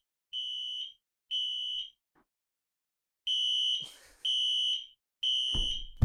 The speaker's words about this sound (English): That was our fire alarm, and they came and said it's not a test.